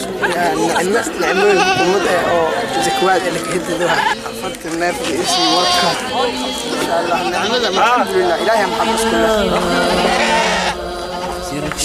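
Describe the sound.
Goats given out as zakat livestock bleat loudly and continuously, many overlapping calls rising and falling in pitch over crowd chatter.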